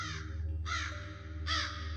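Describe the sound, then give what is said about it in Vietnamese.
Crows cawing on a windy hillside: three harsh, rasping caws, evenly spaced over a low, steady rumble. “Gió thổi vụt qua, bên sườn đồi vang lên tiếng quang quát của quạ, nghe thật rùng rợn.”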